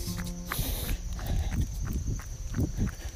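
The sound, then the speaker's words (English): Running footsteps crunch on a rocky gravel farm road in a rapid, steady rhythm of many scuffing impacts under constant rushing noise. “I always pick up something here. It's part of this road. It's almost like running through gravel. There's so much of it.”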